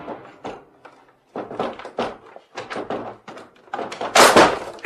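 A locked door is forced open with many heavy, irregular thuds and bangs. The blows come in uneven clusters, and the loudest, most crashing impact lands near the end.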